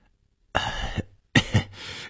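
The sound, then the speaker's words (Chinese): An old man's awkward cough, a short throat-clearing burst followed by two quick coughs, moderately loud and alone with no speech. “李老头尴尬地咳了一声说”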